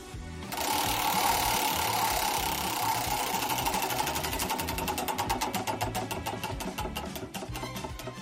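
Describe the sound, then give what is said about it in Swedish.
A prize wheel spun on a radio show gives a fast, loud rattle of ticks that blur together, then gradually slow so the individual clicks spread apart toward the end. “Ska jag snurra på hjulet? Ja, ta i det.”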